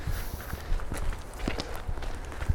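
Footsteps walking back, a steady run of soft thuds and scuffs at an even pace, with no one speaking.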